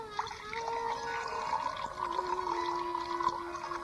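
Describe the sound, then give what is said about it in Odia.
Water poured into someone's cupped hands makes a steady, fairly faint trickle and splash that runs throughout without pause. “ଏ କ'ଣ ଜଳ ଯେ ତଳକୁ ବହିଯାଉଛି”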